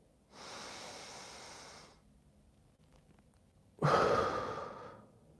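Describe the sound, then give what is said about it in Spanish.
Deep breathing during a relaxation exercise: a softer, steady breath is followed after a pause by a louder, rushing exhalation that trails off gradually, with no talking over it. “Primero vas a inhalar con, llenando todos tus pulmones y vas a exhalar como soltando el cuerpo”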